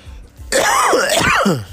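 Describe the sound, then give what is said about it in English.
A single harsh, gravelly cough or throat clear bursts in abruptly after a quiet moment, with a rough voiced tone that rattles on for just over a second before easing off. “got that cough, I know.”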